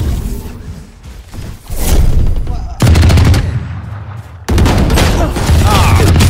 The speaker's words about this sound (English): I shot Jet twice in the back. She turns around and headshots me.